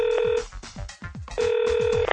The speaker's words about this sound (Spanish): Compañeros técnicos, llamémosla por teléfono.